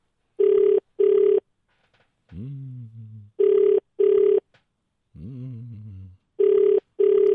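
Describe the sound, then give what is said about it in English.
An outgoing phone call rings with three double rings, each a pair of short, steady, evenly spaced tones. Brief voices are heard in the gaps between the pairs. “we're calling you. Come on, Lou, pick up.”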